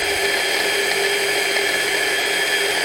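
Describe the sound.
Steady, unbroken motor whir of an electric kitchen chopper mincing food for a mix with egg yolk, holding one even, loud level throughout with no pauses and no voices.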